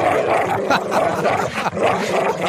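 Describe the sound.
A dog barking from a home alarm: loud, continuous rough barks with growling that fill the whole clip.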